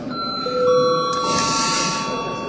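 Electronic bell chime signalling the start of registration mode in a parliament chamber: sustained, overlapping ringing tones that enter one after another, steady and fairly loud, with no talk.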